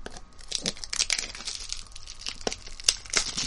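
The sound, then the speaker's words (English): Shrink wrap being sliced and peeled off a trading card box: irregular crinkling and tearing rustles with many sharp crackles, moderately quiet, with no talk. “Let's give it a slice.”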